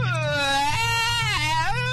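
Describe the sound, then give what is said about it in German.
A person imitates a crying baby with a sustained, wavering wail whose pitch dips and rises again, loud and continuous throughout. “Aber mal so richtiges Babygeheule kriegen wir jetzt auch noch hin.”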